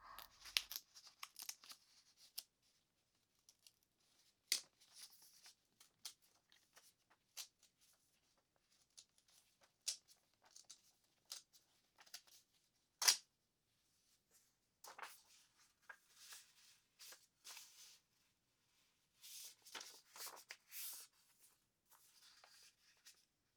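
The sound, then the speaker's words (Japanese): Soft paper sounds as a letter is slipped into an envelope and sealed with a sticker: faint, intermittent crinkling and tearing-like rustles with short pauses between them, with no talking. “よーし、書けた。あとは封に入れてシールを貼ってと。”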